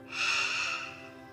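A deep inhale through the nose during a guided breathing exercise, a single soft airy rush that swells and fades over about a second, with a faint steady hum beneath.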